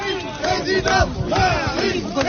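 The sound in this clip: A hostile crowd of factory workers greets Emmanuel Macron at the Whirlpool factory in Amiens, with many voices shouting and jeering together in a loud, continuous, dense roar.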